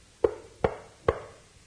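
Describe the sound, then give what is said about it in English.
Three knocks at a door, sharp and evenly spaced, each with a short hollow ringing tail, heard alone against quiet background hiss. “he's cleaning up for dinner, and there comes a knock at the door.”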